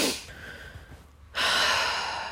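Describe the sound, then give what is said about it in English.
A deep breath: a loud, breathy rush of air that fades briefly, then swells into a strong, sustained, hissing breath through the second half. “deep breath.”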